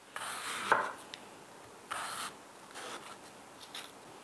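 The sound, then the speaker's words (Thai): Knife slicing a mango, heard as a handful of soft, brief scraping strokes spaced unevenly, with one longer drawn cut in the middle, all faint against near silence. “ซอยมะม่วงก่อน”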